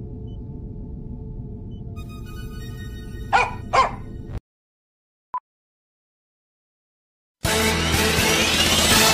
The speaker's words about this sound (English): you do realize you're a tiny little dog, right?